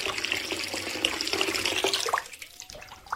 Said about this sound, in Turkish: Yüzümü yıkayıp kendime geleyim.